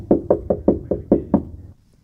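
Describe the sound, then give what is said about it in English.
Knuckles rap on a door seven times in a quick, slightly uneven rhythm. The knocks are sharp and fairly loud, and silence follows. “Door knock number two.”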